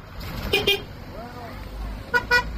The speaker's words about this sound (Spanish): Y este era el sonido de la carretera de la Culata en Tejeda este sábado.